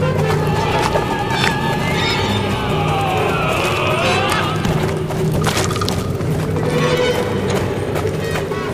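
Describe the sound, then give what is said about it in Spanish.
Horses neigh repeatedly over steady clip-clop hoofbeats as two black horses pull an open black carriage out of fog. The whinnies are loud and come at intervals above the continuous hoof noise. “El coche negro, guiado por dos imponentes caballos del mismo color, emergió entre la niebla”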